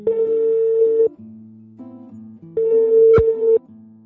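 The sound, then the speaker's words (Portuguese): A telephone ringback tone plays while a reporter's call to a reserve military officer connects. There are two even, steady rings of about a second each, separated by a gap of quieter lower tones. A sharp click lands midway through the second ring. “o que o Caio fez foi tentar ligar para o militar”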